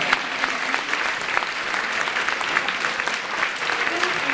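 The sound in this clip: Lively audience applause at a German live music event as a band from Vietnam is introduced, brisk continuous clapping with a few voices rising above it.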